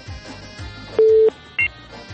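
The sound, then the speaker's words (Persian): A telephone line tone follows a call that has been cut off. A steady mid-pitched tone holds for about a third of a second, then a brief higher double tone follows over a faint, steady background. “بله، تماس خواهر ما متاسفانه قطع شد”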